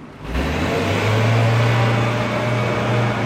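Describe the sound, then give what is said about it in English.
A car engine coughs to life as the driver starts it to drive away. It catches abruptly, then holds a loud, steady, low droning rumble to the end. “The engine coughs to life and he drives away.”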